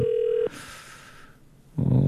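A telephone ringing signal while calling a radio listener: one short, steady tone at the start, then near quiet, before a louder burst of sound at the end.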